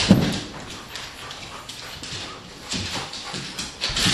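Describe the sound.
A dog flops around and throws itself against the side of a couch, making a run of soft thumps, scuffles and rustling with a few louder bumps, and no talking.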